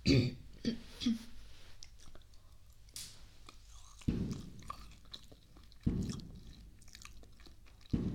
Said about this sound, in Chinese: 我刚切的火龙果，吃吗？不吃正好，不吃我吃了啊。